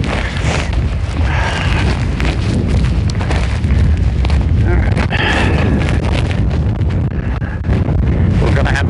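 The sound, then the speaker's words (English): Wind buffets a microphone with a small foam covering outdoors, producing a loud, continuous low rumble and rush that holds steady throughout with slight surges. “Y'all can hear the wind, maybe. This mic does have a little foam covering for wind”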